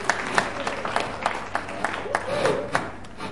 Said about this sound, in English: Just put your hands together for Nicole.